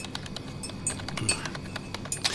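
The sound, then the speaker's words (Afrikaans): A metal spoon clinks against a glass while stirring a drink with no sugar added, making many light, irregular taps and chinks at a fairly quiet, steady level. “Meneer het vergeet om suiker in te gooi. Meneer roer verniet so.”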